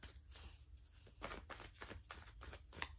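A deck of oracle cards is shuffled quietly: soft papery riffles and rustling bursts repeat in a loose, continuous rhythm, with no talking.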